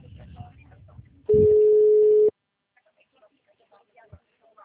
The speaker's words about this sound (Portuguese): Ah, tô ligando pra eles.